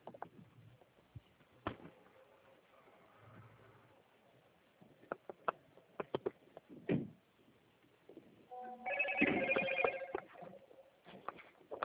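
Telephone ringing as a transferred call comes back, a short burst of ringing near the end, preceded by scattered clicks and handling noises over thin, telephone-band sound.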